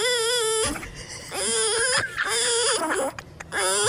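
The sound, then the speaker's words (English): Whining cries in several drawn-out, wavering bursts, high and strained with rich harmonics, separated by brief pauses, with no talk over them. “What was he doing that day? I think we were just recording him whining, and he just did it.”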